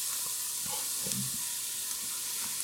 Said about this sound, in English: So I'm just stirring my cabbage and leeks here. It's really, the volume is really reducing down.